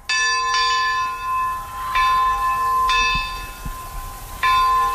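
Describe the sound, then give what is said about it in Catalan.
A monastery church bell in Banyoles, weighing about 80 kilos and newly restored, rings out four resonant strikes at uneven intervals, each bright metallic tone humming on and decaying before the next. “Feia un mes i mig que no se sentia aquest so, i és que la campana, que pesa uns 80 quilos, es va despenjar perquè calia restaurar-la.”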